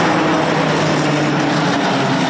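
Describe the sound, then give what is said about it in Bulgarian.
A retro tram runs through the streets of Sofia with a steady, heavy rumble and a low mechanical hum that holds throughout, unbroken by voices. “А в края на деня по софийските улици тръгна ретро-трамвай.”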